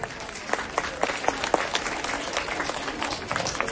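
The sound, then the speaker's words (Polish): A crowd on Jasna Góra square claps to welcome pilgrim groups as they arrive. The applause is loose and uneven at a modest level, with sharp individual hand claps standing out from the spattering. “brawa dla nich i brawa dla tych grup, które wchodzą na Jasnogórski Plac.”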